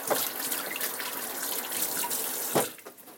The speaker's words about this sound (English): drop it in the sink, and unplug the motor ant. Give my hands a wash here.